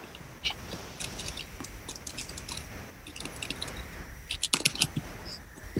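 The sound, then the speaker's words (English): Computer keyboard keys click as a business name is typed, forming irregular light taps with a quicker flurry of clicks near the end and no talk. “Now type in your business name,”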